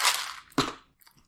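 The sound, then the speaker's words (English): Chewing grape-flavored gum: two sharp, noisy mouth smacks followed by a few faint wet clicks, with no voices. “this grape gum, by the way, is just awesome. I'm like, I can barely talk because I'm Mento grape gum.”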